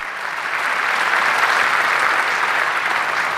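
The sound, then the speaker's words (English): A standing ovation of dense, steady applause welcomes the legendary leader of the Polish Democratic Opposition as he arrives on stage to receive a title. The clapping holds evenly loud throughout, with no voices over it. “A standing ovation welcomed the legendary leader of the Polish Democratic Opposition when he arrived on stage to receive the title.”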